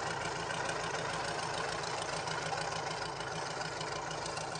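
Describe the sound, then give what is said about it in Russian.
A tractor engine idles in snow beside a logging clearing, giving a steady, constant rumbling drone that stays even in loudness throughout, with no voices. “Трактор останавливается.”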